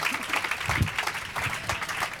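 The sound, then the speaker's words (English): An audience applauds to welcome a guest onto a stage, with dense, steady clapping at moderate volume throughout. “Please put your hands together for John Hamm. Come on down.”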